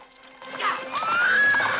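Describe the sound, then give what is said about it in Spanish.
A horse-drawn carriage pulling away, with a horse's high, wavering whinny over a continuous rumbling clatter. “El carruaje se aleja.”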